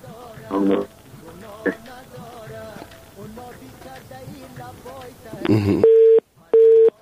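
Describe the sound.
Telephone busy signal after a dropped call: two steady, mid-pitched tone beeps separated by a short gap, coming after a stretch of talk and line noise.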